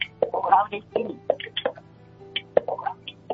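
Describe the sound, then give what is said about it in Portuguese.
A radio plays loudly behind a caller on a phone line, its muffled voices and sounds mixing with brief bursts of talk and a steady low hum throughout. “Abaixa um pouquinho o volume do rádio. Dá pra você abaixar um pouquinho?”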